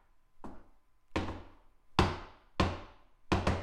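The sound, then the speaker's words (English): Knocking on a tall red door in a coded pattern: a few sharp, evenly spaced raps that end in a quick double knock, heard alone without voices. “She knocked a special knock,”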